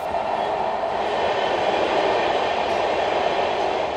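A train carriage rolls on rails on the last ride home, giving a continuous, even, loud rumbling roar with no distinct wheel clacks and no voices throughout.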